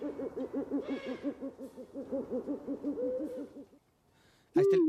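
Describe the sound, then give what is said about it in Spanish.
Tonal hooting of a Spanish eagle-owl: a rapid, even run of many short, harmonic notes, then a brief quiet gap and one sharper, higher call at the end. “la especie que tenemos en España se llama bubo hispanus, que ¿sabes de dónde viene la palabra bubo? No, pues si tenemos el sonido, viene precisamente del sonido que hace, que es como uo.”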